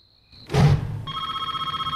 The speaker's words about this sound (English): She picks up the cordless phone.